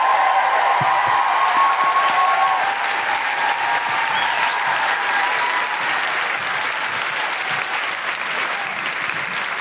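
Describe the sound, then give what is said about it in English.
Audience applause with woohooing, dense, steady clapping that holds at a loud level throughout, with cheering voices rising above it early on. “Could you please put your hands together and make amazing woohooing noises for the wonderful Molly Sterling?”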